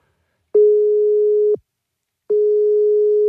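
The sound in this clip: Two long ringing tones of an outgoing telephone call, each a steady single-pitch beep lasting about a second, separated by a pause of similar length, loud and alone with no voices.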